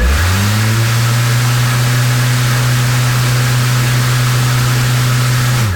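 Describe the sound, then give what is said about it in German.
A battery-powered lawn mower's motor starts up and runs: a loud, steady low hum that swells in at the start, holds evenly for several seconds and cuts off at the end, with no voices. “einen Akkumäher. Und damit das vom Geräusch her auch passt, starte ich den jetzt mal für dich und für alle Elektroliebhaber klingt das jetzt so.”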